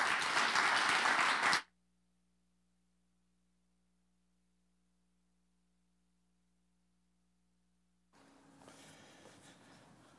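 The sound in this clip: Audience applause welcoming a speaker bursts out loud and dense for about a second and a half, then cuts off abruptly into near silence before a low murmur of background noise returns.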